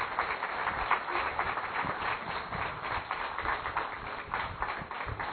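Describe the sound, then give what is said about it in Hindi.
A standing audience applauds to welcome a guest at a spiritual gathering, with steady, dense clapping that continues at an even level throughout without letting up. “एक बार सब अपने स्थान पर खड़े होकर करतल ध्वनि से भाई साहब का हम अभिनंदन और स्वागत करेंगे।”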